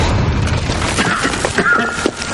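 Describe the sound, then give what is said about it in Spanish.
A box explodes with a loud, broad boom, and dense rumbling and crackling noise carries on through the whole moment without letting up. “La caja explota sin ocasionar daños”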